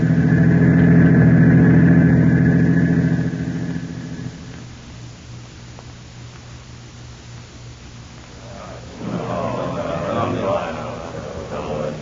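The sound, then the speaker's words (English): A car engine drones steadily and loudly for a few seconds, then drops to a quieter, continuous rumble as the vehicle drives on, with a brief swell of noise near the end. “Ah, Steve, it's 8:45. We'll drive Larry down to the counter spy field office.”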